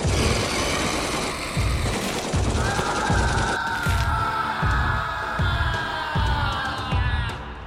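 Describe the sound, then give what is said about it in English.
Battle gunfire from soldiers fighting off attackers, with heavy shots thumping in a steady, evenly spaced rhythm over a dense, continuous crackle of fire. “When the Drax got close to the ground, they ripped the limbs off of human soldiers easily. Even as they were being shot.”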